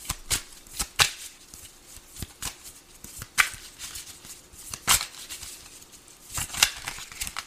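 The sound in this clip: A deck of cards is shuffled and handled, producing many sharp papery clicks, snaps and brief riffles at an irregular pace. The sounds are crisp but moderately quiet, with no voices.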